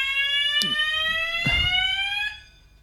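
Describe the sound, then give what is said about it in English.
A fire alarm goes off during a test: a loud, steady electronic tone rich in harmonics holds for over two seconds and then cuts off, with a couple of brief knocks in between. “The fire alarm just went off. They seem to be testing fire alarms in here, which is great timing.”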